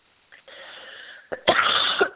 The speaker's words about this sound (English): Excuse me for coughing.